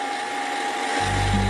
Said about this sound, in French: Carglass vous offre un aspirateur de voiture Noroto.